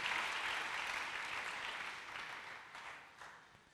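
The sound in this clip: An audience at a church service applauds in a faint, soft wash of clapping. It stays steady, then gradually tapers off with no voices on top.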